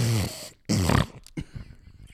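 A person imitates snoring with a couple of loud, rasping nasal snorts, each followed by a brief pause, then several shorter, fainter snuffling sounds.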